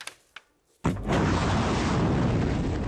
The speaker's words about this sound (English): This is the sound of a war escalating. Iranian missiles launched against Israel,